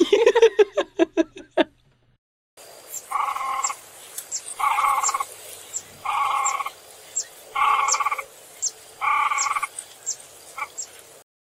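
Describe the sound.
Two crested grebes nesting under overhanging willows. A rapid series of pulsing notes is followed by five long, buzzy, nasal calls at a steady pace, with shorter high notes scattered between them, clear and alone.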